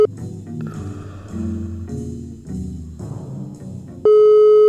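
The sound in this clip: A steady single-pitched telephone line tone from an unanswered call comes in abruptly near the end and holds loud and unbroken, following several seconds of music.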